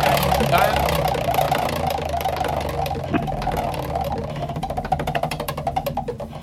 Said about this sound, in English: Well, let's spin it for you and your nan.